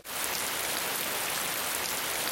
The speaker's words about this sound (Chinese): 这雨什么时候停啊？